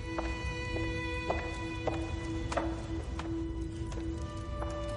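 A woman's footsteps cross a hall in an even series of hard, clicking steps. A steady tonal musical drone plays underneath, with no voices.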